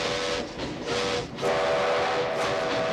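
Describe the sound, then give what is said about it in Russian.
A steam locomotive whistle, sounded by pulling an overhead cord in the cab, blows a sustained tone over rushing train noise. It dips briefly, then returns louder and steadier. “Паровоз съезжает на отходящие влево рельсы. Док и Марти одновременно опускают платки с лиц. Одев кепку машиниста, Док дергает за расположенную сверху веревку.”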